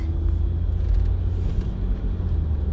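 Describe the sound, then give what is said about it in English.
Steady low rumble of a car driving on the road to Target, with engine and road drone heard from inside the vehicle and no talking. “I'm driving to Target right now.”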